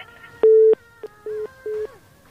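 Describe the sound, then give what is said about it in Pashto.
A telephone busy tone sounds after a dropped call: a few short, steady mid-pitched beeps with uneven gaps, fairly loud over a faint hum. “اړیکه یې قطع شوله اړیکه یې قطع شوله”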